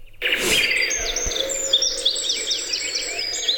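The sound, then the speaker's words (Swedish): Blackbird song played as a summer ambience: many quick whistled chirps and fluttering trills that start abruptly and continue steadily with no talk. “Kastar du på koltrast, sommarljud, bara bin, whatever you can find, och så att vi bara får känna sommaren tillsammans.”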